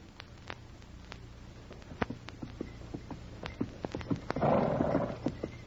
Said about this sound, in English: Sergeant Preston of the Northwest Mounted Police was riding the trail toward Dawson on horseback